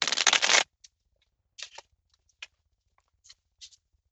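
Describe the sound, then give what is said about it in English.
A deck of cards is cut into three piles during a card reading, opening with a short, dense riffling burst followed by a few soft, scattered taps and flicks as the cards are set down. “And then I take a deep breath in, a deep breath out, and I cut the cards.”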